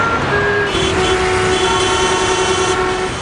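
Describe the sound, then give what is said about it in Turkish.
Road traffic with trucks and cars flowing through İnegöl, Bursa: a loud, steady roar of engines and tyres that holds without a break, with a long sustained tone running through most of it. “Burası Bursa İnegöl'de akan bir trafik.”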